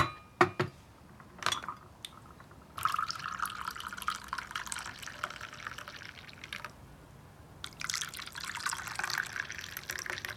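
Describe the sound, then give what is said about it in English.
Tea pouring into a cup: a few light clicks first, then two steady stretches of liquid streaming, moderately loud, with no voices. “Brenda smiles at Jackie as she pours the tea.”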